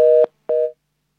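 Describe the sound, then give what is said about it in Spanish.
Telephone line tone from a call that fails to connect: two short, steady beeps of equal pitch, about a quarter second each and separated by a brief gap, sounding alone before silence. “Voy a darle paso a alguien que está llamando por teléfono. Adelante, por favor.”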